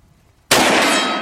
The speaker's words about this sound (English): Yeah, I love shooting steel. That's a nice round.